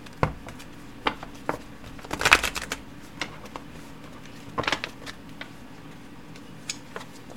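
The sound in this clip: A tarot card is drawn from the top of the deck: soft card handling gives a few scattered light clicks and taps, with two brief, louder papery bursts of rustling near the middle, alone without talk.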